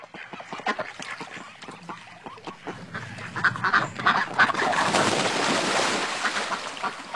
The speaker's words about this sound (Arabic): بطة بطة شفناها جوا البركة محلاها